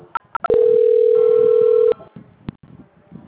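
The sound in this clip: A telephone tone during a call transfer: a few short beeps, then a steady mid-pitched tone held for about a second and a half, followed by clicks and faint line noise.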